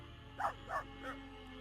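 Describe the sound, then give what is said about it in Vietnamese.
Three faint, evenly spaced barks from a dog scratching at the ground with its front paws under a mango tree, short and mid-pitched over a low steady background hum. “Nó dừng lại ngay dưới gốc cây xoài rồi cứ như vậy cào hai chân trước xuống mặt đất. Vừa cào nó vừa sủa lên vài tiếng: Vàng, Vàng ơi.”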